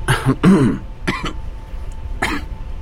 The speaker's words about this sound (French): Tousse un peu.